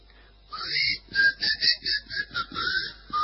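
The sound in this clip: A person whistles a quick run of many short, bobbing high notes, fairly faint and alone with no talk.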